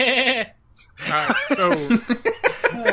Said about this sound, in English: By your old enemy, do you mean the guy that you turned into a goat?